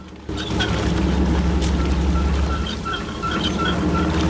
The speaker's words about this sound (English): Water begins to pour back into the Orpheus. John goes into the pump room. The boat rocks as he wades through the water, which is ankle deep again.